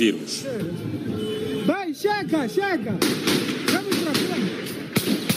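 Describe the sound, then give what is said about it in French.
Gunshots ring out in a city centre: a few sharp cracks early on, then a quicker series of loud reports later, all under a speaking voice. “Dans le centre-ville, très vite, des tirs retentissent.”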